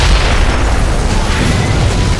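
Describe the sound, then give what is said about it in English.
Explosion of a barbershop hit by a tossed charge of dynamite, bursting into splintered wood and broken glass: a loud, dense, sustained roar with heavy low rumble that holds steady throughout, with no voices. “The barbershop exploded in a mass of splintered wood and broken glass.”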